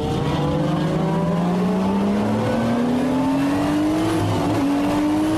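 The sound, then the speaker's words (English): Race car engines roar at the start of a race. A loud, unbroken engine drone climbs steadily in pitch, dips briefly near the end, then picks up again. No voices are heard. “we don't like it when you play race car sounds because it's a podcast.”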